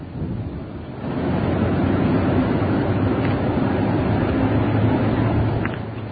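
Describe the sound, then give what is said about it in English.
Strong wind buffeting a microphone up high, a steady, muffled rumbling roar that swells after the first second and stays loud and continuous to the end, with no voices. “Awful lot of wind up there.”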